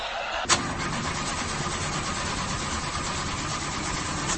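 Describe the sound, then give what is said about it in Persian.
A car engine cranks, with a suspected clutch plate fault. A sharp click comes first, then a continuous, even mechanical churn that holds at a steady level to the end, with no talk. “داداش از صفحه کلاجشه، متوجهی؟ آقا استارت نمیخوره.”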